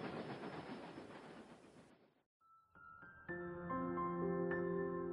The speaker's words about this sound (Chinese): 好了，我的时光列车又来了，快，快跟我一起上车，度过一段美好、安静的时光。